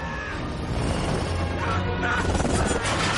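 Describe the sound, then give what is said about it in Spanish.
Loud crashing and grinding from a film battle scene, as a helicopter is grabbed by a huge flying creature and smashed into another helicopter. The noise is a dense, continuous roar that stays strong throughout. “El Toruk agarra a un helicóptero y lo estampa contra otro.”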